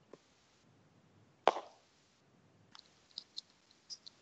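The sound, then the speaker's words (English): Computer mouse clicking, with one louder, sharper click followed after a pause by a scattered run of several faint, quick clicks, all quiet and without any talk. “So I'll hit enter and go straight to Google, and then I'll click images.”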